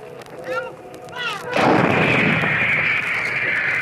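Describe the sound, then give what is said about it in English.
A howitzer firing on a Korean War gun line: after softer rumbling, one heavy booming blast breaks into a long, loud rolling roar that carries on to the end. “A Gun Position as this howitzer pounds round after round into the advancing human sea”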